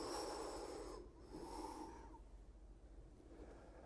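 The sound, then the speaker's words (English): Deep, slow breaths drawn in and let out, faint and airy: two long breathy pushes of air in the first half, then softer, quieter breathing trailing off, with no talk. “Take a deep breath in with me. Another one, this time deeper than usual.”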